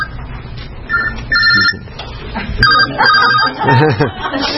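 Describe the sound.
A mobile phone rings unexpectedly during a Bible teaching session. Its ringtone repeats in a series of bright, tonal bursts with short gaps between them.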